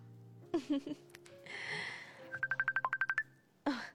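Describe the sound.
A phone rings for an incoming call as a rapid run of short, high, evenly spaced beeps, with bursts of talking before and after.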